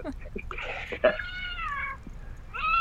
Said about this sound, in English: Any possibility you can hold them up and let them meow to the microphone?